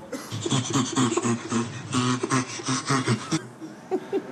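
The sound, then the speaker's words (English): A chimpanzee laughs in rapid, breathy, panting bursts, each a hoarse huffing pulse, running on in a quick, uneven rhythm for several seconds. “Let's hear from the chimpanzee first.”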